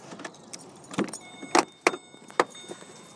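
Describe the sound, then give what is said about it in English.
Car keys jangle as an old car is opened, a few sharp metallic clinks and rattles spaced apart over a quiet background, fairly faint overall. “Get out, find the old car key. Open it up and”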